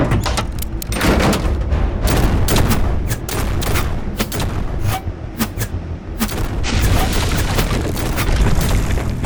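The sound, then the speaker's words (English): Futuristic pulse-weapon gunfire blasting apart a pillar used as cover during a firefight, with many sharp cracks and heavy booms in a dense, continuous barrage that stays loud throughout. “pulse fire blasts apart his cover”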